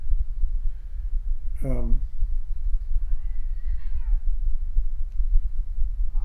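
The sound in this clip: Cats meow over a steady low hum: first a short, loud, sharply pitched cry, then about a second later a fainter, longer, wavering meow.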